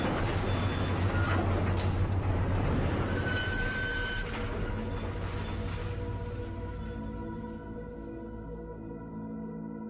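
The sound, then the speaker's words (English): Crushed automobiles are shredded by a machine, a continuous loud grinding roar with faint metallic whines running throughout and slowly easing in level toward the end, with no voices. “that's the sound of a crushed automobile being shredded into a million pieces”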